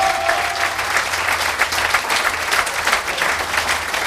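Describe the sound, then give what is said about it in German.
An audience applauds performers, a loud, continuous roar of many hands clapping with a slight rippling pulse and no break from start to finish. “Ja, da gehört auch mal Applaus”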